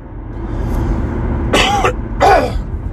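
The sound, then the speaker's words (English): Two short, rough throat-clearing bursts from someone riding in a car on the I-40 heading west, each loud over a steady low rumble of road and engine noise. “Excuse me as I clear my...”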